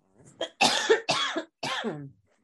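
Coughing from a person who has just got over COVID: a faint first cough, then three harsh, loud coughs in a short fit, with no other talk.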